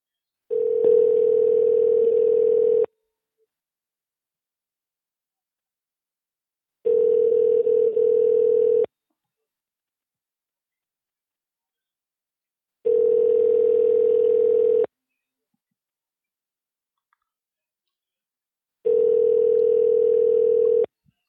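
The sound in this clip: A telephone ringback tone sounds while a call is being placed: four steady, mid-pitched bursts of about two seconds each, separated by longer silences.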